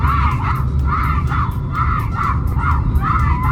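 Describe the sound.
Fans chant a name inside a Lahore mall, a loud crowd shouting in a steady repeating rhythm of many bursts over a constant roar of voices.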